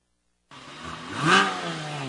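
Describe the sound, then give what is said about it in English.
A Porsche sports car engine revs after a brief moment of silence, its pitch climbing to a loud peak and then settling into a steady, throaty hum. “With a certified pre-owned Porsche, the sound of over 60 years of race-bred engineering is closer than ever”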